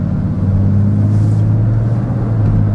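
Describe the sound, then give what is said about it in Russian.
Steady low rumble of a car driving from an office along Rengstorff toward Highway 101, a continuous engine and road drone without any talk. “Мы движемся от нашего офиса на хайвей номер 101.”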